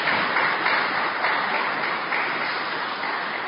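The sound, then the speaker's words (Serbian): Warm audience applause welcoming a female guest at a gathering: a dense, steady wash of many hands clapping that stays even and fairly loud throughout, with no voices. “i stvarno bih jednim zamolio vas jedan veliki aplauz da je pozdravimo svi toplo, onako i srce.”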